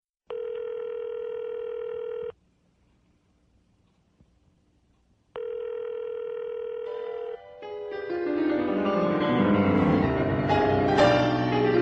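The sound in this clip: Telephone tones through a headset: a steady dial tone sounds twice with a silent gap between, then a denser, louder wash of dialing and ringing sound takes over.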